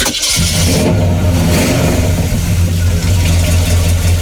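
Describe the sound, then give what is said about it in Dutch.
A 1968 Chevrolet Impala custom sport coupe engine starts with a brief crank and catches into a loud, deep, steady rumble that holds at high volume throughout. “Een Chevrolet Impala, 1968, custom sportcoupé. Deze auto heb ik nu ongeveer 4 jaar. Tegenwoordig is het allemaal één pot nat. Dit is heel wat anders. Je wordt er al vrolijk van als hij start.”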